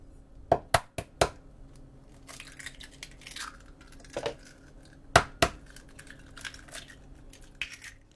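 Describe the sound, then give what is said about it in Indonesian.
Eggs cracking against a bowl while mixing Japanese-style cake batter: a few sharp, crisp cracks and taps, some in quick pairs, spread across a quiet background with softer clinks between them. “Pecahkan 2 butir telur ke dalam mangkuk.”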